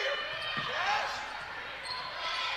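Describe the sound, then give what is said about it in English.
A basketball is dribbled on a court during a game, with repeated hollow bounces under voices in the background. “Now Cash has it. She dribbles between the circles.”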